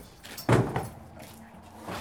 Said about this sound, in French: Là, on vient de passer la porte, de pousser la porte de ce futur magasin